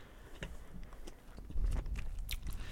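Crunchy chewing and biting of a candy said to taste like earwax, a steady run of soft, irregular crackles and wet mouth clicks that grows slightly louder in its second half, with no talk.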